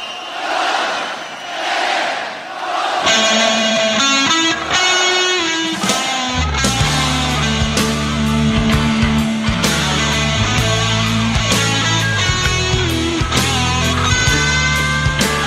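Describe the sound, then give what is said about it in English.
A crowd chant recorded at a live show opens a rock track: rhythmic, swelling shouts from many voices, followed by electric guitars and drums that take over loudly. “Okay, it sounds like this is a live song, but it's not. This chant that you have is from one of their live shows.”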